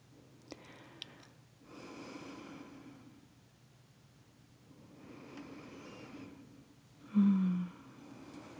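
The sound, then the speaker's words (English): A person breathes out slowly in a few soft, airy exhalations, separated by short pauses. The breaths are faint and breathy, with no talking. “Now your turn. Same way. Breathe out.”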